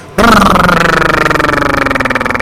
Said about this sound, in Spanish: Y después con esos ronquidos, parece un tortón que va frenando ahí llegando a Carapan. Freno de motor.